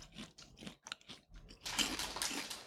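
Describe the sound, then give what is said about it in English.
Crisp crunching of caramel popcorn being chewed, many irregular bites and crackles: sparse and separate at first, then denser and louder toward the end, with no talking. “It's a caramel popcorn.”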